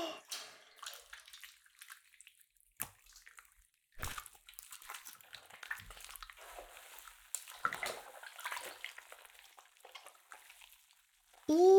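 Hot bathwater sloshing and splashing as someone sinks in up to the shoulders: irregular bursts of water movement separated by quiet pauses.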